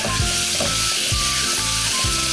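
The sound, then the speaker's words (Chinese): Spring bamboo shoots sizzle loudly in a wok over high heat after light soy sauce goes in, for twice-cooked pork with bamboo shoots: a dense, steady hiss of frying, with stirring, throughout. “首先生抽开大火，把这个春笋倒进去”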